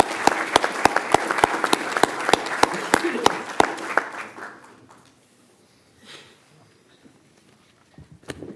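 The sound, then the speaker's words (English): Audience applause at a council meeting honouring board members for their service: loud clapping with sharp, regularly spaced hand claps standing out, thinning and fading after about four seconds into near quiet. “Once again, applause for all those for their service given.”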